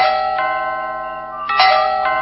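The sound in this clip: A bell is rung insistently, giving a few bright, sustained metallic tones that overlap and keep ringing between strikes, with a stronger strike near the end.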